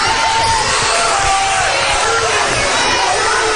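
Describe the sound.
A basketball is dribbled repeatedly in the forecourt late in a tied game, with dull rhythmic thuds under a constant loud roar of crowd noise and shouting.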